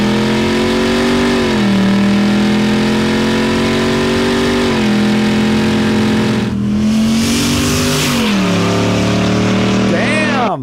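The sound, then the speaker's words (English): A naturally aspirated, carbureted car engine revs loudly, its steady roar swelling upward in pitch and falling back several times, with a brief rush of noise midway. “That is it's naturally aspirated. I heard a little sucking action on the carburetor there”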